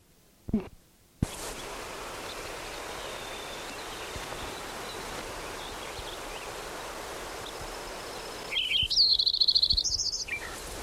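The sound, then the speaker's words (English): Lincoln's sparrow song: one rapid, bubbly phrase of high warbled and trilled notes rising above steady background hiss, after a brief knock near the start. “Lincoln Sparrow number 10.”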